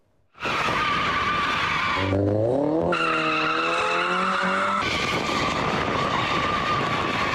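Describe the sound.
Tires squeal loudly as cars drift on a public road during illegal street drifting, a continuous high shriek whose pitch bends and shifts, joined by engine noise.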